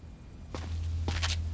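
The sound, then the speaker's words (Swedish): A few footsteps as someone gets up and goes out, soft thuds over a low steady hum. “Du reser på dig och säger att du går ut en stund för att leta vatten och mat.”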